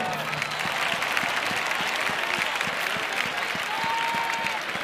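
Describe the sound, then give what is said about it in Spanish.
An audience applauds the band at a large anniversary pop concert, with dense, steady clapping from the crowd throughout and no break. “primero pido un aplauso para esta banda de titanes, por favor.”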